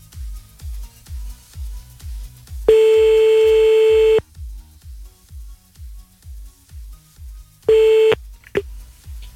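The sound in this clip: Telephone line tones while calling someone back: a long, steady, loud electronic beep of about a second and a half and a shorter one later, followed by a brief blip. A fast, regular low thumping pulse runs underneath throughout.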